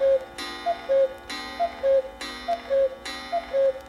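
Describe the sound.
A clock sounding at twelve noon, a steady alternating pattern of short higher blips and longer lower tones repeating about four times at an even rhythm.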